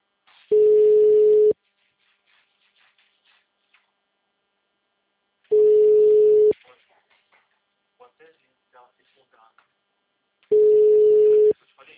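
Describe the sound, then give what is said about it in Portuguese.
Telephone ringback tone from a call ringing out: three steady one-second tones, evenly spaced about five seconds apart, with quiet gaps between. “Ligar pro Chatonildo do cliente aqui. Chamou aqui.”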